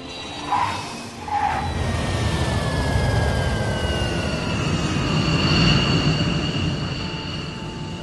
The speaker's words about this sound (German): Am Flughafen mieten sie sich einen Wagen und fahren an der Pazifikküste entlang.